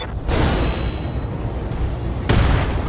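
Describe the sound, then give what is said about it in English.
A giant mech kicks a downed enemy mech in a video game. Two heavy, booming impacts land over a continuous roaring rumble, the second near the end, loud and without talk. “All right, Decker. Time to literally kick him when he's down. Putting my weight into it.”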